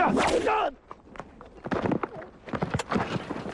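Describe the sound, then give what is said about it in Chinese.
Horse hooves clip-clopping at a gallop as a fast horse is ridden toward a bandit ambush; a loud burst opens, followed by uneven, irregular hoofbeats. “只见由远而近，一匹快马向着土匪的埋伏地直奔过来。”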